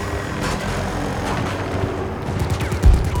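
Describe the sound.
Gunfire in a video game: a rumbling, continuous wash of distant-sounding shots and low booms, with a louder burst of rapid fire near the end.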